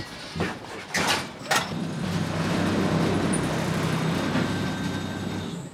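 Low, steady rumble of a car driving down into a new-build construction site. A few short thuds and knocks come first, then an even rolling drone carries on to the end.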